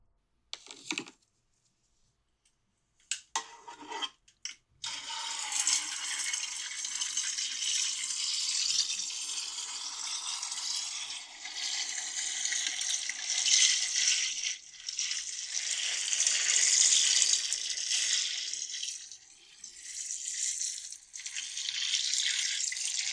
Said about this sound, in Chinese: 差不多了，可以冲水了。